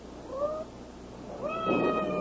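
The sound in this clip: Cat meowing twice, a short mid-pitched meow followed after a pause by a longer, louder, drawn-out one.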